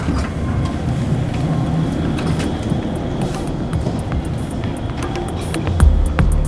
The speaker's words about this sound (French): On est à la gare, au pied de la statue de Jean-Marie Apriou